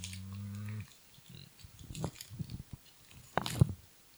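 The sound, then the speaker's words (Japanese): Crunching bites of a mentaiko-flavoured puffed corn stick snack: after a short low humming tone at the start, a series of faint crisp crunches and chews follows, growing louder toward the end. “なんかの上で食べれば別にうまい棒かこれはジャンキーだぞしかもその中でも一番味の明太味”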